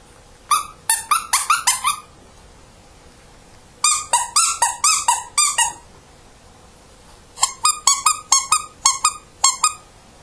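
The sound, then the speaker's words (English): A dog's soft, plush squeaky toys squeak in three separate bursts of rapid, high, rubbery squeals, each run several squeaks long, with quiet pauses between the bursts. “She prefers soft squeaky toys to the latex or harder ones. Her normal collection of squeaky toys makes sounds like this.”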